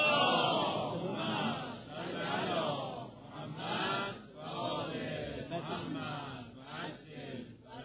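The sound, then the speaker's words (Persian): A crowd at a religious talk chanting the salawat, a blessing on the Prophet, together in unison. A loud, sustained mass of voices moves in repeated swelling phrases without pause. “حالا در این رابطه اجازه بدید من یک نمونه دیگر از قرآن کریم بگم، با یک صلواتی به استقبال این آیه بریم.”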